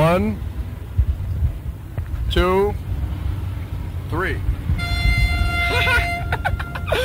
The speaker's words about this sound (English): on the count of three, anyone who has WDAI on in their car radios honk their horns